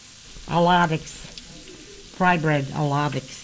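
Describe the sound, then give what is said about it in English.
Bread frying for a soup meal, a steady sizzling hiss running throughout, with two bursts of a voiced, harmonic sound rising over it. “We're making million-dollar soup and fried bread.”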